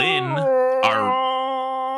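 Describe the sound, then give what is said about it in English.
A person gives a very long yawn: a drawn-out voiced groan whose pitch shifts at the start, breaks briefly, then settles into a steady held tone to the end, alone without talk. “I'm sorry, I yawned there. it's a very long yawn.”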